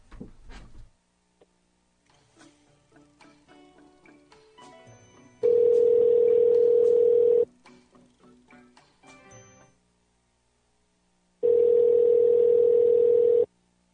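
Telephone dialing and ringing as a call is placed: a run of short electronic keypad beeps, a long steady tone, more beeps, a pause, then a second long steady tone. The tones are clear and loud.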